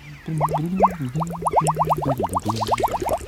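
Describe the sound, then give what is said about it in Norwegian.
Sudden bubbling in a bathtub of creamy water: many quick upward-sweeping bubbly blips come in a rapid, uneven run over a low droning tone, moderately loud throughout. “Han lener seg fornøyd tilbake da det plutselig begynner å boble.”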